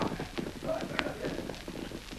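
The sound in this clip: A horse's hooves clip-clop faintly in a quick, uneven rhythm of many soft knocks over a low, noisy background.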